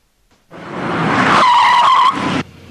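A car skids with a loud, continuous tire screech lasting about two seconds. A steady high squeal rides over broad rushing noise before it cuts off abruptly, with no talk.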